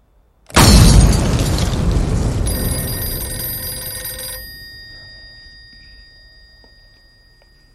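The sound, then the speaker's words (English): An outside television broadcasting van explodes at night: a sudden loud blast bursts in, then a long rumbling roar slowly fades. High metallic ringing tones hang over the first half of the decay. “Outside the venue in the dead of night, an outside television broadcasting van explodes.”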